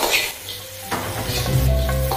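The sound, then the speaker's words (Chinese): Fish sizzles as it is placed into a hot pan while preparing vinegar-braised fish, a loud crackling hiss throughout, with a sharp metallic clatter of pan or utensil near the middle and bursts of frying noise after it. “然后咱把鱼放里面。 现在放鱼了”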